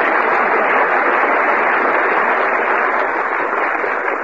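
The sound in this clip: A studio audience gives dense, steady applause welcoming humorist Robert Benchley. The clapping holds at an even, loud level throughout.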